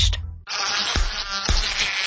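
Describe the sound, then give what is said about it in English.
Mosquito buzzing: a steady, high, whining drone starts after a short quiet moment and holds loud and alone to the end. “Ow! Stay outside this summer with season-long mosquito and tick control services from Mosquito.Buzz.”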